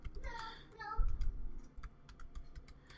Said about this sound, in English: So if I just type in investment calculator, there's a whole bunch of different ones.